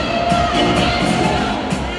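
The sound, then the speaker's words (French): Belarusian fans cheering at an ice hockey rink: a dense, continuous crowd roar with scattered shouts and whoops at an even loudness. “Et le public biélorusse s'enflamme.”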